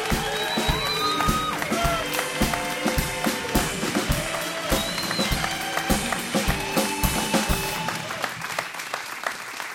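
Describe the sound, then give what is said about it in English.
The audience of a public radio show claps and cheers as a Major League Baseball umpire is welcomed as a guest. Upbeat rhythmic music with a steady beat plays over the crowd noise. “That is so weird. I never get cheered when my name is called.”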